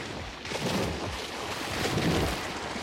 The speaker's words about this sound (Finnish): Vene ajelehtii